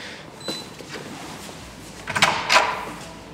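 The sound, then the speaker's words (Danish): An extra door swings open as people walk in, giving a few small clicks and then a louder rattling swish with a second clatter just after. “Der er sådan en ekstra dør her, man kommer ind så.”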